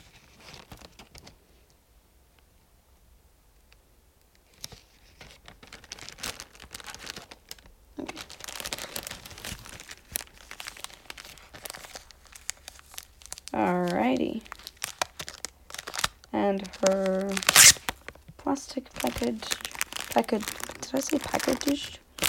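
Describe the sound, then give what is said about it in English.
Wrapping paper crinkles and rustles in bursts while a book is being wrapped, with a person talking over much of it. “I should get wrapping paper and wrap the book already.”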